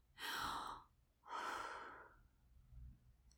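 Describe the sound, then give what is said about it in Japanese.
Deep breaths drawn in cold midwinter air to calm nerves. There are two long, soft, airy breath sounds, one after the other, then a faint low thump near the end. “今度は深呼吸をする。”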